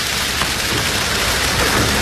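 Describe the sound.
Rain falls heavily as a dense, continuous hiss that stays steady and loud throughout, with no breaks or distinct drops standing out.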